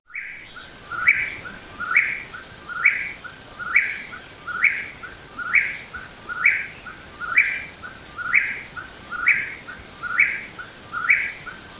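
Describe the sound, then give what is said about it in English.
Blue-winged warbler song: many short, bright buzzy phrases repeated at a steady, even rhythm, each one alike and moderately loud over a quiet background. “Blue-winged warbler.”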